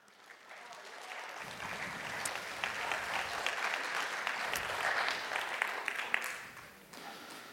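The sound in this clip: Applause from an audience at a Christian gathering welcomes a volunteer to the stage: a steady wash of many hands clapping that swells after a quiet start, holds for several seconds, then thins out near the end.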